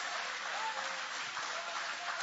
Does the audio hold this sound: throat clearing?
no

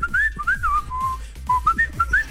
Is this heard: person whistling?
yes

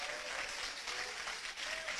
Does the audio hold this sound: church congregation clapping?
yes

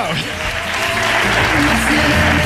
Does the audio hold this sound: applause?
yes

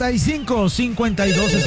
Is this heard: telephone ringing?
yes

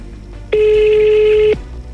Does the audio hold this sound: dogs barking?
no

